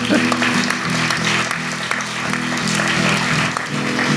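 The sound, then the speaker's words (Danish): An audience applauds a man who has just become a father, a dense, loud wash of clapping that stays steady for a few seconds. “Prøv lige at give Simon en hånd, han er lige blevet far.”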